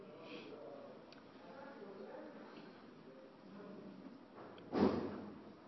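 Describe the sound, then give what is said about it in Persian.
A classroom door is shut with a single short thud near the end, heard over faint, steady background voices. “کسی نیست تو کلاس ها؟ نه، یعنی کسی بیرون نشسته درش رو ببند.”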